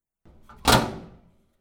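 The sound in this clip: A sauna door swings shut with one dull, heavy thunk after a faint soft scrape, and the thud fades over about half a second into silence.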